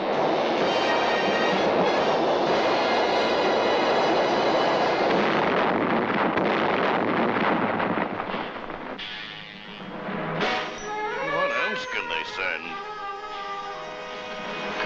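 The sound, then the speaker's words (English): Cartoon sound effect of ground-to-air missiles launching: a loud, sustained rushing roar that lasts several seconds and then thins out, followed by wavering high whistling tones. “Okay, I'm launching ground-to-air missiles.”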